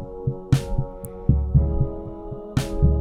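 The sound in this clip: A distorted keyboard plays three sustained chords in a slow, steady throbbing pulse, set in a song arrangement with a drumbeat. Two brief bright crash-like bursts stand out over the low, dense chordal drone.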